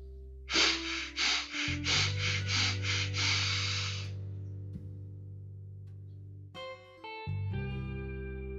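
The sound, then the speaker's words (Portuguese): Breathing exercise with short breaths drawn in through the nose, heard as a run of soft airy puffs over sustained musical tones that carry on after the breaths stop. “São três respirações curtas pelo nariz e uma longa. E a gente recebe e a gente repete esse ciclo quatro vezes.”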